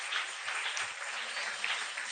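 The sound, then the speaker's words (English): An audience claps during a worship service, giving a faint, even wash of many hands with no clear break. “Clap these special hands.”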